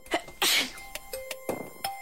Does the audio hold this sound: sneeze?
yes